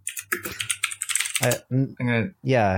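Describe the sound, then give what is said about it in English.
Rapid clattering of typing on a computer keyboard, a dense run of keystrokes lasting about a second, followed by a voice speaking. “Hang on, I'm going to clickety-clack keyboard again.”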